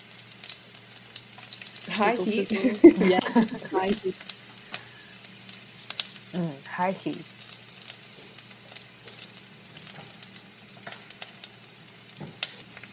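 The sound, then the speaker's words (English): Oil fries in a pan on high heat, a faint, steady crackling sizzle running through the whole clip. People talk over it in a few short stretches. “Oh, I hear oil.”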